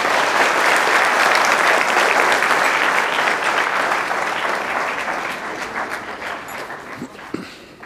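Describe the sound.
Audience applause welcoming a speaker onto a stage: dense, loud clapping that holds steady, then slowly fades toward the end.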